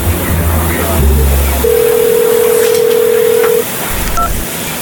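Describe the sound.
Phone call ringback tone while a call is placed: one long, steady tone lasting about two seconds rises out of low background noise, then stops.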